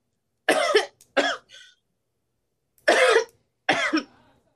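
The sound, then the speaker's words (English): Four harsh coughs in two pairs from someone with a popcorn kernel stuck in the throat. Each burst is loud and short, with silence between them. “popcorn kernel. It got stuck in my throat. That hurt really bad.”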